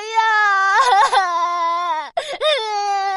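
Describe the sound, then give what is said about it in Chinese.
A voice imitates wailing crying for a little winter-brother character in a bedtime children's story: a sustained, high, wavering wail that breaks off briefly, then resumes. “冬天弟弟着急的哭了起来，他晶莹的泪珠变成了一片片雪花。”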